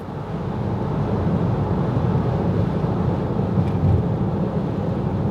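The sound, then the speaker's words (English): Loud wind noise from a car driven fast, a steady, dense rushing roar that holds at even loudness throughout, with no voices. “I'm driving fast, so if you can hear the wind and all this stuff, I apologize.”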